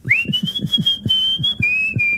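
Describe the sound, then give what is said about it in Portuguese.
A whistled radio jingle: one long, steady, high whistled note that drops to a slightly lower pitch near the end, played over a steady, low thumping beat. “Mais uma vez, um grande jingle. Sempre. Um grande assobio e uma grande Carolina Torres”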